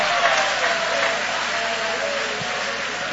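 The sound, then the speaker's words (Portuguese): A church audience applauds with dense, steady clapping that stays moderately loud for about three seconds without a pause. “joga a mão para cima então e aplaude a Ele”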